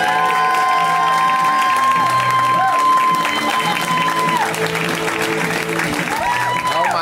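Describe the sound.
A comedy show audience applauds and cheers as a comic is welcomed to the stage. The clapping is loud and continuous, with scattered whoops and shouts throughout.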